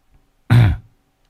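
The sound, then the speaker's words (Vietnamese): A single short cough, loud and throaty, rises abruptly and stands alone against near silence. “Lúc nãy ho phát đấy, quả đấy là ho thật đấy không ạ?”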